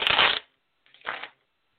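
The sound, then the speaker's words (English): Playing cards being handled and shuffled before being laid out for a card reading: a longer riffling burst, a short pause, then a second, shorter burst, crisp and papery against silence. “I'm going to lay the cards out for all three scenarios and see what they want to say, and we can speak on that.”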